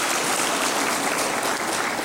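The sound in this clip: Applause from an audience congratulating a coach, the assistant coaches and the technical bench for their leadership. It is a dense, steady wash of clapping that holds at an even level through the brief moment, with no voices standing out.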